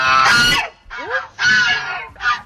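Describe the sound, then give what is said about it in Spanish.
Geese kept as alarm-raisers on a farm honk loudly in four harsh, nasal calls, the first long and blaring, the later ones shorter with brief gaps between them. “a mí me suena a un equino, sean las ocas, que resulta que son las encargadas de dar el aviso si pasa algo extraño a su alrededor”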